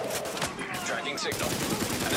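Gunfire from shooting at enemies in a video game: a dense run of rapid, sharp shots that keeps going through the whole clip.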